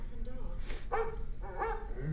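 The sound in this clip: A dog barking in a few short, yipping bursts close together, moderately loud over a low background hum.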